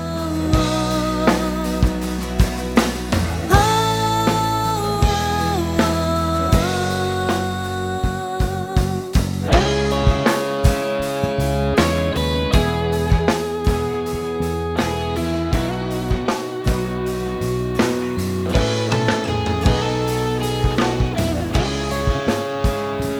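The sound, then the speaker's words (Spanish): A song with vocals from a female guest's new album plays as background music, with a regular driving beat under layered melodic parts, steady and fairly loud with no talking over it. “Hoy tenemos una música de fondo... No es música instrumental, como hacemos habitualmente, porque tenemos invitada con disco nuevo. Así que aprovechamos y va a sonar de fondo a nuestras palabras hoy.”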